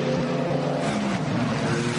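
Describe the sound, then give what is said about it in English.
A Cupra Leon Competition touring race car on a track produces a continuous, even engine drone at moderate level, with no distinct pass-by swell. “And that is the Asbest Racing Cupra Leon competition. And Dennis Lysing driving 577.”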